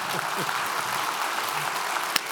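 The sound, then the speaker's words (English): Audience applause welcoming a guest at a multi-campus gathering: a dense, steady wash of clapping that holds throughout, with a voice heard briefly alongside it. “Would you please, at all of our campuses, put your hands together and welcome Beckett Cook.”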